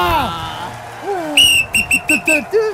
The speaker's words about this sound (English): I reckon it's a whistle.